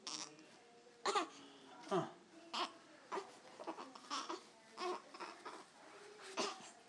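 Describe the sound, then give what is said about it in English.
A baby fusses during a diaper change for a wet diaper, letting out many short, separate whimpers and grunting bursts rather than a sustained cry, with brief quiet gaps between the sounds. “He's not crying yet, is he? It's like he's not fully crying yet, huh?”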